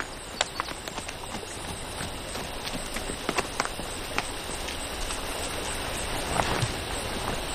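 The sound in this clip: Hooves clip-clopping as a horse with a rider trots past a tree on a sunny, tree-dotted hill: many faint, irregular clicks over a steady, hissing, water-like background.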